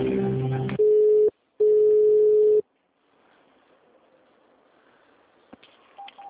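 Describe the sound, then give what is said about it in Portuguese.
Telephone tones sound while a call is being transferred: two steady, mid-pitched beeps, a short one and then a longer one, separated by a brief gap and followed by quiet line hiss with a few faint clicks. “Estamos transferindo a sua ligação.”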